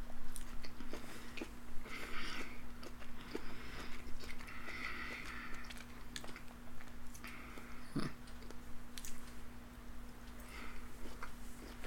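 Someone eats mango with chili powder, making soft, repeated chewing and biting sounds. The mouth noises are faint and moist, with no talking.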